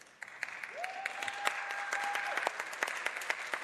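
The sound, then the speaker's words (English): A live audience applauding at the Indigenous Comic-Con in Seminar Hall at the Isleta Resort Casino, a steady patter of many hands clapping, with a sustained high tone through part of it. “And as you can hear, we have a live audience here.”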